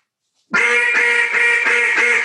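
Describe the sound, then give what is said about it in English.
Quacking from a blown "small talk" model duck call with a wider sound: a quick run of about five loud, raspy quacks in an even rhythm, with no voices. “So this is a small talk right here. Going to have a wider sound”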